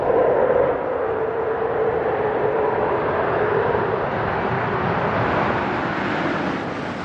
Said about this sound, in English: Main gear touchdown.